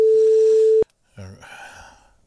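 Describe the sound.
A single steady telephone ringing tone during a call, one even mid-pitched beep lasting under a second that stops sharply, followed after a short silence by a voice speaking.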